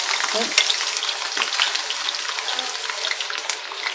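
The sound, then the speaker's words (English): French fries sizzle in hot frying oil while being stirred, a steady, dense crackling hiss with scattered sharper pops that runs unbroken through the whole stretch. “So I'm now stirring the French fries one more time.”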